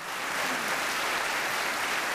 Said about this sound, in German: Das Gedicht ist doch einen Applaus wert, oder nicht?